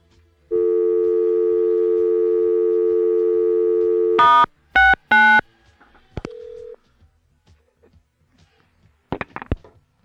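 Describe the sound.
A telephone tone sounds after a caller hangs up: a steady, loud, buzzing drone holds for about four seconds, then a few sharp clicks follow, then a brief lower beep and more faint clicks.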